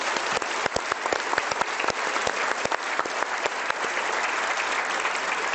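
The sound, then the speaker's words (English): Audience applause greets a panel of introduced reporters from local radio, newspaper and TV, a steady, dense clapping that holds at an even level throughout, with no voices. “If you would give them a hand, I'd appreciate it.”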